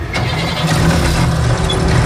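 A military vehicle's engine starts with the driver at the wheel. It catches right at the outset and settles into a loud, steady, low mechanical rumble that continues evenly to the end.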